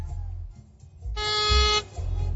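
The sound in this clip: A single weak, thin car horn honk lasting under a second, sounding over a low rumble, with no voices.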